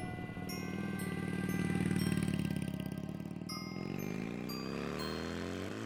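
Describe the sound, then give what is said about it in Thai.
A motorcycle engine starting up with its key: a steady buzzing drone with a rich harmonic tone that swells slightly and then holds, fairly faint, with no voices. “ผมก็ได้เริ่มสตาร์ทรถมอเตอร์ไซค์ซึ่งกุญแจก็อยู่กับตัวผมตลอด”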